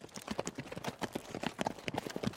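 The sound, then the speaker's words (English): Horse hooves as a horse is ridden away, a busy, rapid clip-clop of many hoof strikes holding a fairly even level throughout. “Something in the Black Knight's voice made the sheriff turn his horse and ride away.”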